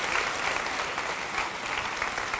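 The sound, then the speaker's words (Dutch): Audience applause fills the hall as a mother-in-law is greeted at a church's first service: dense, steady clapping from many hands, loud and continuous throughout with no voices above it. “Ze is hier ook in de zaal. Geef haar even een applaus.”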